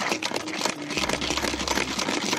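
Chocolate-covered peanuts spin in a salad-spinner style device, making a loud, dense, continuous clatter with rapid, rhythmic pulsing.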